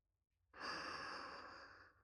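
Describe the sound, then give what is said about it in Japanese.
A deep breath drawn in through the nose: a single airy rush of breath that starts abruptly, holds steady for about a second and a half, then fades. “落ち着くまで深呼吸を。鼻から吸って。”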